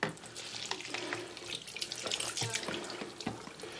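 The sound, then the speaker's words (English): Water splashes and sloshes as film is dipped in and out of a rinse to wash off suds, giving faint, irregular bursts of watery noise. “I can just keep dipping the film in and out just to try give it a really good rinse and try and get all the suds off.”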